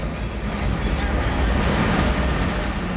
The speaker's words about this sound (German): Achtung, Achtung, auf Gleis 11 fährt ein der Sonderzug aus Athen.